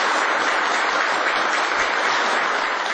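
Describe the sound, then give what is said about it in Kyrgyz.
Long, sustained applause from the audience at a security committee meeting in Turkmenistan. The dense, steady clapping runs without break and without voices. “Кол чабуулар узакка созулду.”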